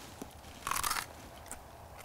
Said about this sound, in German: Knackt genauso wie bei einer Karotte. Ist ähnlich wie eine Karotte, aber schmeckt bestimmt süßer. Es ist süß.